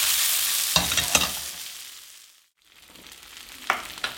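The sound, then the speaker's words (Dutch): Food frying in half-melted butter in a pan: a steady sizzling hiss with a few sharp scraping tosses. It fades to near silence midway, then the sizzle resumes with more tossing bursts. “En dan bakken we ze daar nog even op. Ik doe niet alles in één keer. Nogmaals, ik vind het belangrijk dat het in de pan kan husselen.”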